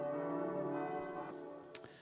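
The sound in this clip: Church bells ring for a memorial service, their layered, sustained tones humming together at moderate loudness and slowly fading, with a brief sharp click near the end.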